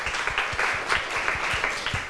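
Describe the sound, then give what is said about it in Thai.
Fairly quiet applause from a small audience during a class session, giving thanks to two students: scattered, distinct hand claps repeating at a steady pace throughout. “ขอบคุณค่ะปรบมือให้ทั้ง2คนหน่อยค่ะ”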